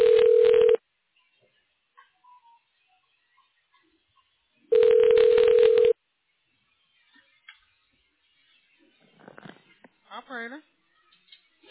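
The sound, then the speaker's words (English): Telephone keypad tones dial an extension number, a short steady beep followed after a pause by a longer one, then faint voices come through the line. “If you know the extension number of the person you are calling, please dial it now.”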